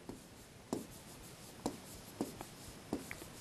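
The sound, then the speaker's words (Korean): A pen writes the word 'phenomena' by hand, making faint scratching strokes with a few distinct louder scrapes spaced irregularly across a quiet background. “자, 다시 이렇게 써볼게요.”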